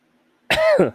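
A single short cough from a tickle in the throat, an abrupt, fairly loud rasp with a throat-clearing edge, heard on its own.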